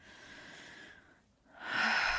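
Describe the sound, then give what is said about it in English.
A slow, deep breath during a calming exercise: faint, steady airy breathing, a short lull, then a fuller and louder breath with a breathy hiss. “And breathe. Just take a breath.”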